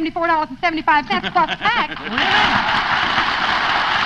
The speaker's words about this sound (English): Somebody must have given him a motorcycle. Gee, a motorcycle.